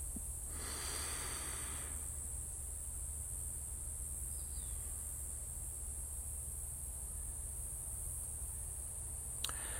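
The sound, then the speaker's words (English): A deep breath drawn through the air comes as one soft, hissing rush early on, faint over a steady low hum and quiet background noise. “Maybe breathe in deep and exhale.”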